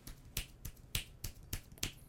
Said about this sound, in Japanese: じゃあこれを、もう90度移動させてマイクの後ろ側で指パッチンをすると、どれぐらいになるかというと